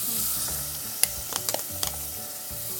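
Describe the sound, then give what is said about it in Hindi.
Chopped onion sizzles in a hot pan with lightly browned garlic for a chickpea curry. A steady crackling hiss runs throughout, and a few sharp scrapes and clicks of stirring cut through it. “अब इसमें प्याज डाल दो प्याज भी chop करके start कर”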